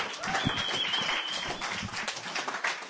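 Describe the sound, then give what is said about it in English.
Applause at a poetry open mic for a first-time reader, a steady wash of clapping that holds evenly for about three seconds. “Give him a hand. His first time reading on our open mic.”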